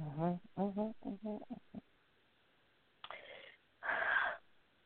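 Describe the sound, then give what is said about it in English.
A woman taking a deep breath: two breathy rushes of air, the second longer and louder, following a run of short voiced sounds. “And she takes a deep breath.”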